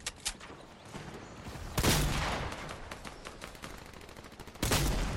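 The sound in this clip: Gunfire in the video game Fortnite: loud rapid bursts of shots break out a few times over a constant patter of quieter shots, with no talk.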